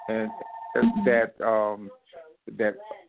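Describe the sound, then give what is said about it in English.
A telephone rings under a person's speech, a steady electronic tone holding beneath the voice for about the first half before it stops while the talking continues. “I hope that you'll forgive my telephone for ringing.”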